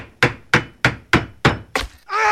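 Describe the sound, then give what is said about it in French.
Hammering during a house roof repair, six sharp, evenly spaced blows in a steady rhythm, each a loud thwack with a short decay, followed by a different sustained tonal sound starting at the end. “Examinons ce que l'on peut entendre lors d'une réparation d'un toit de maison.”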